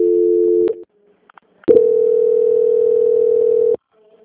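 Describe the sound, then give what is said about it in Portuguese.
Telephone tone during a call transfer: a steady low hum-like tone cuts off, a few faint clicks follow, then a long steady tone sounds for about two seconds before ending abruptly. “Eu vou transferir a ligação, tá?”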